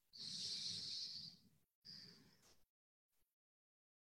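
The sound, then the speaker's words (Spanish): Deep breath during a guided meditation, a long airy hiss followed after a short pause by a second, shorter breath, then silence. “Última vez, vamos a respirar antes de comenzarlo.”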